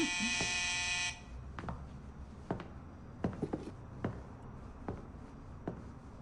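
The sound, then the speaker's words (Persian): A door buzzer blares a harsh, loud, steady electric buzz for about a second, then cuts off, leaving a few scattered light clicks and knocks. “زنگ مزاحم. اون لعنتی رو از دیوار میکنم.”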